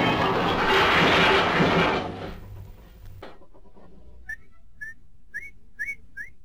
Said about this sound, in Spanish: Silbar hace del trabajo un juego.